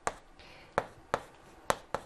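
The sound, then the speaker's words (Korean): Handwriting during a maths lecture: five sharp, dry taps at uneven intervals, crisp and separate, with no talking between them. “이렇게 써요.”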